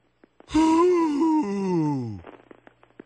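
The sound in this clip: A person lets out a deep breath as a long voiced sigh. The groaning exhale lasts under two seconds, slides downward in pitch and trails off into a few faint clicks.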